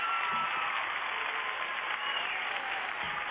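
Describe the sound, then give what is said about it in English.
Audience applause greeting a performer: dense, even clapping at a steady level for the full three seconds, with no voices standing out. “Yo, give my man a round of applause.”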